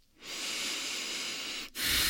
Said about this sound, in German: Atme mal ein über die Nase, über den Mund aus.